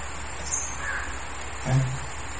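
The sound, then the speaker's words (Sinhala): A crow caws a few times, faint and hoarse over steady background noise. “කොහොමද ඒ කපුටා ඉන්නවා කියලා අපි දැනගත්තා. සද්දේ ඇහෙන්නේ”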